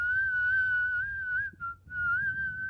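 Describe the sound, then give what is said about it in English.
A person whistles a tune in a clear, bright, sustained line with slight wavering in pitch. It breaks off briefly near the end, then resumes at a steady level. “Not the studio track. That was me whistling.”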